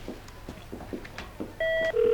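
Telephone ringing on a call being placed to reach someone, heard as two steady electronic tone bursts near the end that follow a stretch of faint, muffled background sounds.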